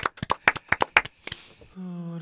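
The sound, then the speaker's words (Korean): A small group claps in a brief, uneven burst of about a dozen sharp, separate hand claps. The clapping then stops, and a steady sustained tone takes over. “여러분 박수가 나가야 되겠죠.”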